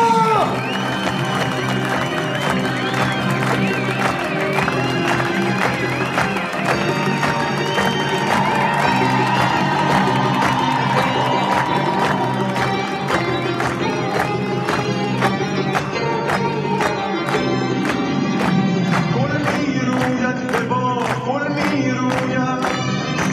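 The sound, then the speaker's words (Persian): A crowd applauding and cheering a singer's entrance, keeping up steady rhythmic clapping in time with loud, lively music. “به افتخار خوانندمون کف دست بلنده”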